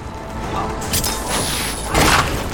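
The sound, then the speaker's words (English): Autocannons fire in a video game, producing a few heavy booming blasts and crashing impacts over a dense rumbling background. “Oh! The autocannons! Oh, this is good. This is like some Warhammer 40k shit.”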